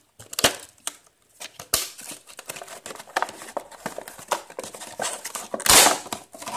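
Crinkling and rustling of plastic packaging as a rat repeller box is opened after being cut with scissors, with many irregular crackles and a louder, longer crinkle burst near the end.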